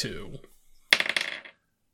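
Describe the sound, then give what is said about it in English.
Dice rolled for a match-up, a quick burst of bright clattering clicks and rattles lasting about half a second, coming after a brief stretch of voice and followed by silence. “Well, let's roll some dice.”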